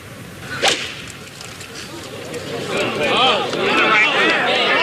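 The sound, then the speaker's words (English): A golf club swings and strikes the ball off the tee in a single sharp whoosh and crack early on. A crowd murmur then swells beneath steady commentator speech. “Stay down, accelerate through the ball, make a good golf swing.”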